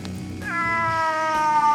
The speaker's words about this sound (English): Cat, no. Get away. Kitty, no, you're gonna make me... No.